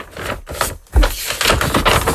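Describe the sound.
An envelope is torn open: crisp paper rips and crackles in short bursts, a brief pause, then a louder, longer stretch of tearing.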